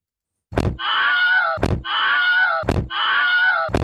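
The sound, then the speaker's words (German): The Wilhelm scream sound effect loops with a door sound: four heavy thuds in a regular rhythm, the first three each followed by a loud, drawn-out wailing scream, with no talking over them. “Eigentlich könnten wir jetzt auch einfach Wilhelm und die Tür für sieben Minuten laufen lassen.”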